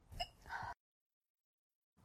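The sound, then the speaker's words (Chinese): A hiccup heard alone: a short, sharp voiced catch of breath lasting under a second, followed by silence. “我在打嗝，你能不能给我一杯水？”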